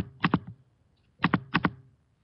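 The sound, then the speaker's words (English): A computer mouse clicks in three quick double-clicks: one pair, a pause, then two more pairs close together, all crisp and fairly faint. “I have to click here.”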